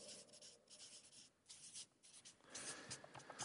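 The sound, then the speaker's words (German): Scratchy, papery strokes of handwriting as someone writes a short phrase by hand. The scribbling runs in quick, uneven bursts without a break and grows louder and denser toward the end. “Also ich schreibe vielleicht einfach nur Welt besserer Ort.”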